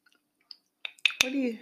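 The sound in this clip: Someone chews a fruit cobbler made with nuts and berries: a few faint clicks, then wet, squishy mouth sounds and a brief voiced hum at the end.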